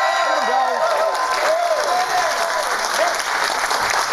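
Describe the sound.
Cheering and applause from a studio audience in New York City, loud and steady throughout, with whoops and shouts rising above a dense wash of clapping.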